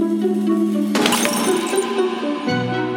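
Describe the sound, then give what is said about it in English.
A glass wine cruet shatters on the marble floor of a cathedral during Mass: one sudden loud crash about a second in, followed by tinkling fragments, over a steady sustained tonal background. “the wine cruet smashes on the floor. He used to say later on in his talks, he says, nothing sounds as loud as a glass cruet shattering on a marble floor in a cathedral in the presence of a bishop.”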